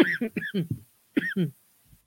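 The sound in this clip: A person gagging and coughing, rough throaty bursts in a quick cluster followed by a pause and then two more heaves, with a faint trailing sound at the end.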